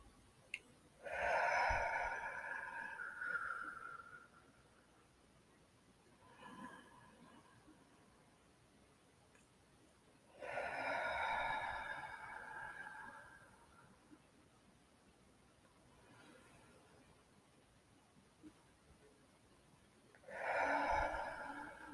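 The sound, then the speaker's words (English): Deep, slow breathing in through the nose and out through the mouth during a guided relaxation exercise. Three long, breathy surges alternate with softer, shorter breaths, all faint, with no talk. “Take three deep breaths, inhaling through the nose and exhaling through the mouth.”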